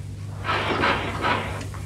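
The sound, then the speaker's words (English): Something is put away into a cupboard, heard as a few soft rustling, shuffling bursts of handling noise over a quiet steady hum. “Now, I shall put it carefully away. Oh, I hate to let it go. Yes, I know how you feel. Now, into the cupboard.”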